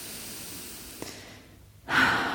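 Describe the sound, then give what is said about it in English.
A deep breath is taken during a closing meditation: a long, soft inhale is followed by a sudden, louder, breathy exhale that carries to the end. “let's close our eyes for just a moment or two of closing meditation. Take a deep breath.”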